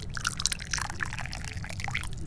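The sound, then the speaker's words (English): Hot tea is poured in a steady, continuous splashing trickle that holds at an even, moderate level throughout, with a low hum underneath. “And now we can finally pour some damn tea.”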